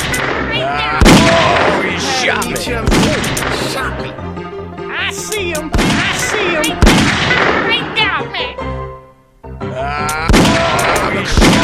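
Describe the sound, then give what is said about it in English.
Gunshots ring out in a few loud, sharp bursts, each a sudden crack spread across the whole range, separated by stretches of voices and tonal sound. “He shot me.”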